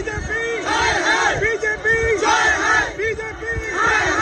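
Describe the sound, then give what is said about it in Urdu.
AAP party workers chant 'BJP hai hai' slogans at a Delhi protest, many voices shouting a short phrase again and again in a loud, rhythmic, repeating pattern. “عام آدمی party کے کارکرتاؤں نے بھاجپا ہائے ہائے کے نعرے لگائے.”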